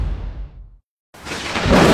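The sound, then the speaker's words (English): Thunderstorm with thunder: a low rumble fades out into a brief silence, then a broad, deep roar swells back in and builds louder toward the end. “A storm is hitting Columbus soon, and blackouts can follow.”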